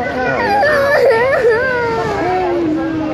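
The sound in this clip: A child cries with a wavering, whimpering voice that rises and falls in pitch, sobbing steadily and loudly for the whole stretch.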